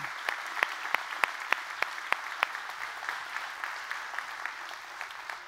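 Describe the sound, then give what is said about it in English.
Church audience applauding guests during a service, sustained clapping with a steady, regular beat of sharper claps that eases slightly toward the end. “You guys go ahead and come on up here. Let's give it up for them.”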